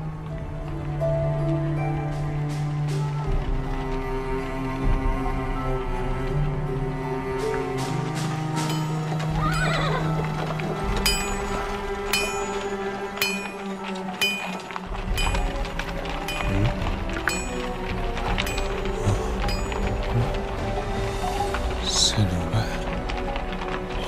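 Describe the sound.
Horse hooves clip-clopping in a steady run of many sharp, loud hits over a dense, tonal background, with voices speaking at times.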